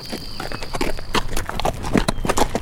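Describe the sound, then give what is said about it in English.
A horse's hooves clip-clop as a rider sets out at dawn. The hoofbeats are steady and moderately loud, with uneven sharp knocks over a faint continuous background. “Dawn was just breaking when Smoke rode out.”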